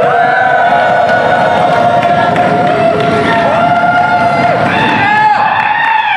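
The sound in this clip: Crowd noise from a packed, standing-room-only hall at an evening session of a tech conference in Las Vegas, a dense, loud and constant hubbub of many voices with cheering mixed in.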